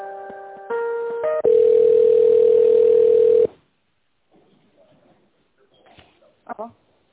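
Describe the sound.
Telephone tones as a call is connected: a few short stepped tones, then one steady sustained beep lasting about two seconds, followed by near silence with a few faint clicks.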